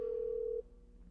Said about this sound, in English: Oh, the phone ring, idiot. Idiot, the phone ring.